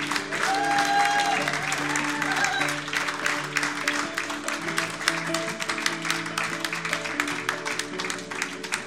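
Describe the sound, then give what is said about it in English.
An audience at a morning church service applauds to welcome a pastor, with dense, steady clapping that runs the whole length at an even loudness. “Why don't you put your hands together and welcome Pastor Stacy this morning.”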